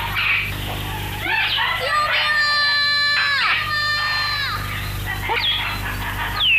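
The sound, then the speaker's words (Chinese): A child cries for help in a drama scene, loud, drawn-out wailing sobs rising and falling in pitch, repeated a few times over a low, steady hum. “咦，悟空，你听，确实是个孩子。”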